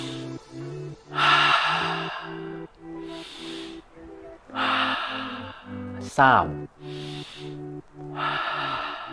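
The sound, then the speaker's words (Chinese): Deep inhaling breaths during a guided deep-breathing exercise: a series of about six breathy, hissing breaths, one sharper than the rest, over low steady tones. “好，準備開始我哋吸氣”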